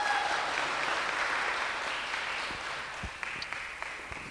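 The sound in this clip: Applause from a church meeting audience welcoming a speaker: dense, even clapping that holds steady throughout, with a few sharper individual claps standing out near the end.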